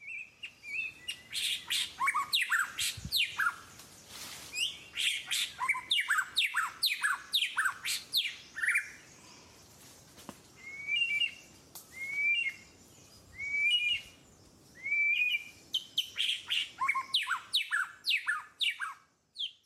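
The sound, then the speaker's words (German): White-rumped shama song: loud, varied whistled phrases and rapid chirping notes, delivered in many bursts with brief pauses between them and no voices. “Also zuerst der Weißbürzel-Schama.”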